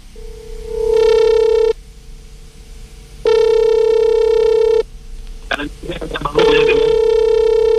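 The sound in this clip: Ringback tone of an outgoing phone call placed from a Jakarta radio studio: three long, steady, evenly pitched rings separated by silent gaps, with brief talk between the second and third ring.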